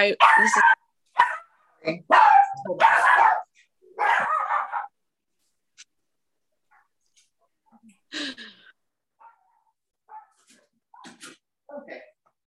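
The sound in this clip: Several dogs in a home bark in a few loud, closely spaced bursts at the start, then fall to sparse, faint yips and snuffles.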